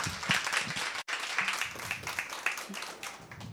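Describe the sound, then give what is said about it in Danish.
Audience applause welcoming guests at the start of a live author interview event. Steady, dense clapping with a very brief break near the start, then continuing evenly to the end. “giv dem lige en rigtig stor hånd, inden vi går på.”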